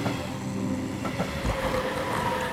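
A train passes through a railway station: a steady, loud rumble of rolling wagons with faint rhythmic clatter running through the whole stretch, and no voices.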